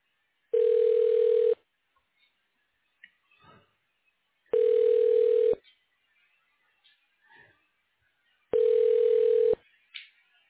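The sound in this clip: Telephone ringback tones while a call is transferred to voicemail: three steady one-second tones, evenly spaced by a few seconds of near silence with faint clicks between.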